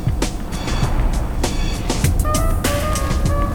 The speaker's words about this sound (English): The couple get into a car parked at the side of the road. As the gang drives off